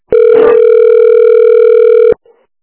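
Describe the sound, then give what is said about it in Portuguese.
A single steady telephone ringback tone sounds while calling a 24-hour emergency care clinic. The loud, even, buzzy tone holds for about two seconds, then cuts off, followed by a faint brief blip. “Estou ligando para UPA.”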